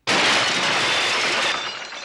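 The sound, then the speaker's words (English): Glass shatters loudly as a camera smashes through a small glass pane beside a table of diners. A bright, crashing burst holds for about two seconds and fades slightly at the end. “The diners turn around and look in astonishment as it smashes through the glass.”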